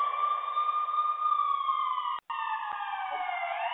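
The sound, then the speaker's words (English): A siren switched on wails as one loud, steady tone with a very gradual downward drift in pitch, briefly cutting out once shortly before the end. No voices are heard. “so let me put the siren on.”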